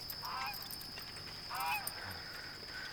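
Caged poultry honk from a cart piled high with sacks and baskets. A few short, nasal calls rise above steady background noise, with no talk.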